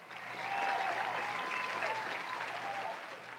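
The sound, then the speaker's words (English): A studio audience applauds with dense, steady clapping that holds at an even level throughout, with no talk over it. “Now, can we please cut down the applause?”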